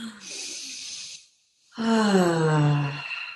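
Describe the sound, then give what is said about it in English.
A deep breath: a soft, breathy inhale, then a short pause and a longer, louder exhale that carries a low, falling voiced sigh. “Now I just want to like, can we just take like a breath?”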